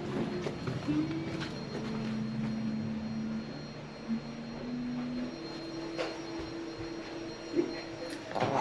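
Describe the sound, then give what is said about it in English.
Someone is vacuuming, and the cleaner gives a steady, whirring drone with a humming tone that shifts pitch now and then as the machine moves. The noise runs continuously, with a few faint knocks and no clear speech. “I can hear somebody vacuuming.”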